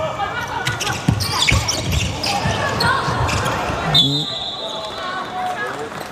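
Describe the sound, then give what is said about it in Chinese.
A basketball is dribbled on the court during an international game involving China's team, giving a few dull thuds amid squeaks, crowd noise and talk. “昆川出现了一个失误，自己运球的时候滑了一下，马上贾赛奇扑上去形成争球”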